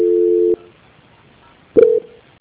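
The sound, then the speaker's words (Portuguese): Telephone call-transfer tones on a Banco Santander customer call: a steady, mid-pitched electronic tone lasting about half a second, then a gap of silence, then a second, shorter tone that opens with a sharp click. No voices are heard. “Só mais um minuto, minha, por gentileza, que eu vou transferir a ligação, tudo bem? Tá, tudo bem. Transferência.”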